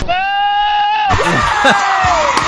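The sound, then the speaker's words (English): A goat yells a long, loud, harsh bleat that holds strongly for about a second, then cuts into excited shouting voices and noise. “mashed up the yelling goat with Oprah Winfrey introducing guests.”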